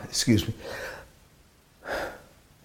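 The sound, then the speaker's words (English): A speaker holds back a sneeze: a quick, sharp gasping intake of breath, a breathy exhale right after, and then one more soft breath after a short pause. “thought I was going to have to sneeze there.”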